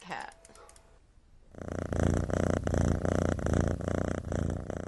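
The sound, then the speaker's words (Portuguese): Domestic cat purring, a loud, steady, rhythmic rumble of fast pulses that begins after a short, quieter stretch and continues to the end. “Este é o som de um puma. E este é o som de um gato doméstico.”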